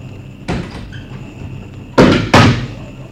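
A door being opened in a hurry after an urgent call to open it, heard as three sharp wooden clunks, a single one and then a quick pair, over a low steady background hum.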